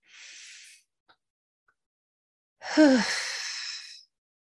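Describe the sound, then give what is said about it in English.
Deep breath drawn during a guided relaxation breathing exercise, a short soft airy breath first, then after a silent pause a much louder, longer rushing breath lasting over a second. “So let's take the first deep breath. Inhale deeply like so.”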